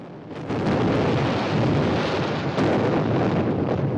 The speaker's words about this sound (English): At the stern of the ship, the sea blasts upwards, forming a wall of spray.